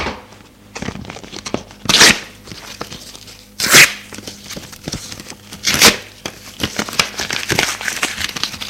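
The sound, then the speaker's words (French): A paper envelope torn open by hand, three loud ripping bursts spaced apart, with softer crinkling and rustling of paper between them. “Elle déchire l'enveloppe qu'elle tenait à la main.”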